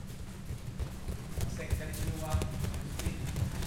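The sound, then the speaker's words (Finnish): Soft, rapid footfalls of a couple dozen children jogging in a circle on a padded floor during a karate school warm-up form a dull, continuous patter, with voices faintly underneath. “Täällä parin tusinan lapsen jalat joggaavat ympyrää pehmustetulla lattialla.”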